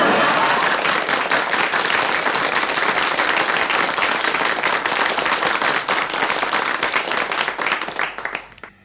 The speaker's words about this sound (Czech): Myslím, aby se diváci nenechali mýlit tím velkým potleskem, to jsou sami mí příbuzní tady